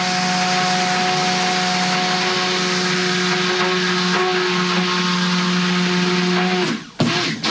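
An electric mixer whirs loudly while oils are stirred with lye in a mixing bowl. Its steady, unchanging drone runs for several seconds, then cuts off abruptly, followed by a few knocks.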